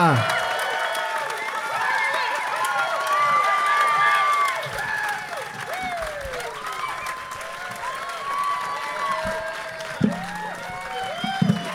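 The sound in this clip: Loud, sustained applause and cheering from a standing audience welcoming guests at a live show in downtown Vegas, a dense steady roar of clapping with shouts and whistles rising over it throughout.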